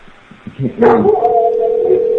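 A dog barking outside a door, a few short, sharp yelps, followed by a sustained steady tone.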